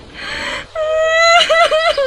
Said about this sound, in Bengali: এত সকালে কি কাঁদছে